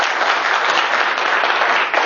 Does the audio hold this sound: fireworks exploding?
no